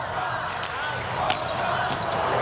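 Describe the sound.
Volleyball struck during a serve in a match: three sharp, brief slaps of the ball, evenly spaced, cutting through a steady wash of arena crowd noise.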